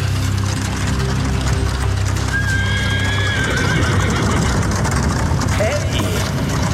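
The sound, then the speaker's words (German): A horse-drawn carriage rushes past at a street crossing: a horse whinnies briefly over a dense, steady rumbling of hooves and wheels that stays loud throughout. “Ich war auf halbem Weg, als eine Kutsche wie aus dem Nichts kommend auf mich zuraste und mich nur um Haaresbreite verfehlte.”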